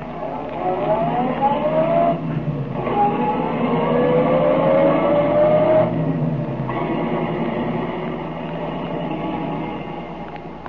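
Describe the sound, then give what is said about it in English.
Car engine driving along as an old-time radio drama effect, with a steady motor drone whose pitch climbs through the gears, two brief dips at the shifts, then a quieter, lower cruising hum. “We know, but Tracy does not, that Remo lies concealed in the back of Tracy's car while the detective drives to Jess Trueheart's home.”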